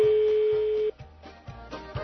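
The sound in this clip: A telephone ringback tone on an outgoing call to Austria: one steady, even electronic tone of about a second, followed by faint line noise.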